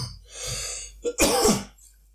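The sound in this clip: A person coughing: a brief breathy lead-in, then a small throat-clearing catch and one harsh, loud cough burst, with no speech.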